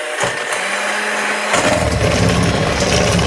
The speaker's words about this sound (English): Let's set the mixer a bit higher